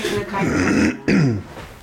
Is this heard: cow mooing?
no